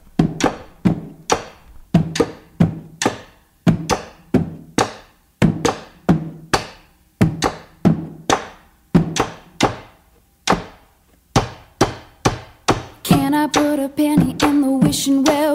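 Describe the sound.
Percussion-only pop song with a steady beat of sharp, punchy hits and clicks. Near the end a sustained tonal layer comes in over the beat.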